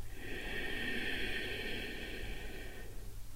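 A slow, deep breath drawn in during a calming breathing exercise: a steady, airy hiss lasting about three seconds that then stops, quiet and heard alone.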